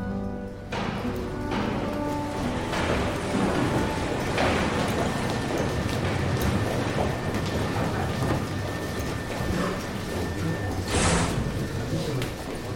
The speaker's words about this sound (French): Tendez l'oreille, mes amis. Les machines dans l'usine font beaucoup de bruit.